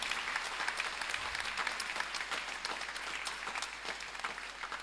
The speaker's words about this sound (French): Nous allons dire merci au Seigneur en l'acclamant très très fort.